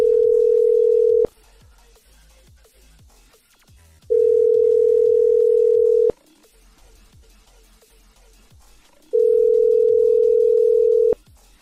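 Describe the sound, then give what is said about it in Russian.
Telephone ringback tone while calling the Platiza microcredit company: three long, steady, mid-pitched beeps of about two seconds each, separated by quiet gaps of roughly three seconds. “Звоним в платизу.”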